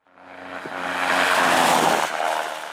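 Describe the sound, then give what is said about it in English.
Car tires hit a traditional asphalt rumble strip, giving a loud, coarse droning buzz over a steady low hum that swells gradually, peaks in the middle and fades away. “That's the sound of a traditional rumble strip, or the rigid strip of asphalt tires hit when a car drifts out of its lane.”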